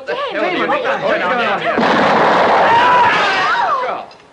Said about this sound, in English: Damon Harris pulled the trigger and the gun blew up in his face